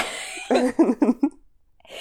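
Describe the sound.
A person coughs in a quick, rough burst of a few hacks in close succession, followed by near silence.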